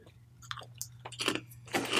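Black pepper potato chips crunched and chewed in the mouth, a few crisp, brittle bursts that grow louder and denser toward the end, heard alone without talk.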